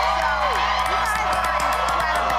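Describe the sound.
A crowd of about 1,500 people in Juneau, Alaska, cheering at 3:30 in the morning: a dense, continuous roar with whoops and shouts rising above it.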